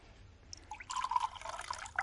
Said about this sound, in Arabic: ها اصب لك الشاي؟ صبي. وانا كمان ياما اصب لي كوبايه شاي.